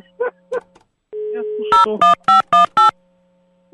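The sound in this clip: A telephone dial tone hums steadily after a few brief spoken words, then five short dialing tones follow in quick, even succession while the tone continues underneath.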